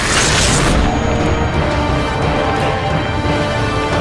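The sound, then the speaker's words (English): A video game effect of a galaxy hourglass bursting open and rewinding time for a broken bridge: a loud, dense roaring rush, brightest in the opening second, then sustained steadily to the end with no voices. “And the galaxy hourglass explodes out and rolls time backwards for the broken bridge.”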